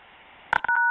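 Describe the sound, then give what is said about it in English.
Telephone keypad key-press tones on a phone line: after a faint hiss, a couple of short clipped beeps pop in, then a steadier dual-tone beep holds to the end. “Your connection was ended with a key press.”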